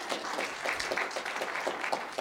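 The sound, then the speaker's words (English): Applause from a church audience during a service: a steady wash of scattered hand clapping that continues evenly throughout, fairly soft. “How many of you were blessed? Yeah, you can give a clap.”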